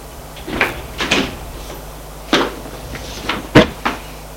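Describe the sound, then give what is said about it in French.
A front door being unlocked with a key and opened, heard as a handful of sharp clicks and knocks spread unevenly over a few seconds, moderately loud with no talk. “Il va vers la maison sans trop faire de bruit. Ouvre la porte d'entrée avec sa clé et entre.”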